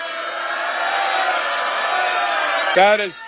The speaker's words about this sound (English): Now, in his concession speech, Andrew Cuomo congratulated the newly elected mayor to boos from his own supporters.